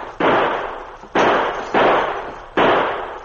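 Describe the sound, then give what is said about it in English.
Gunshots ring out in a shootout: four sharp, loud bangs, each with a brief decaying tail, spaced roughly a second apart with no voices. “While Joe and Eddie fired from the protection of the little office, the Mountie crept forward, crouching.”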